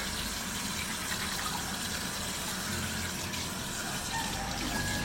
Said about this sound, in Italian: Poi solitamente mi lavo i denti e prendo gli integratori.